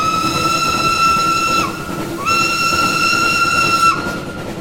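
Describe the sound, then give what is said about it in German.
A train on the rails sounds its steam whistle in two long, loud blasts separated by a brief gap, over the steady low rumble of the moving train. “Miss Letterly bestieg am 20. dieses Monats, 8 Uhr abends, den Zug nach Edinburgh, der am anderen Morgen gegen 9 Uhr sein Ziel erreichen sollte.”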